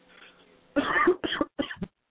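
A smoker's coughing fit: a few harsh, hacking coughs in quick succession, the first long and loud, the later ones shorter and rougher, with no talking around them.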